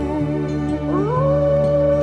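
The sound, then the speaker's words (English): A lone coyote howls at night in one sustained, loud, tonal call that starts low, sweeps upward partway through, then holds a steady, high, drawn-out note to the end, with no other voices. “The beautiful note of a lone coyote is a song that you can hear, and the coyote you can hear,”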